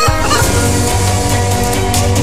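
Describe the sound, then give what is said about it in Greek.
Loud, continuous clucking from a chicken comes in quick repeated bursts. “Ζωή και κότα.”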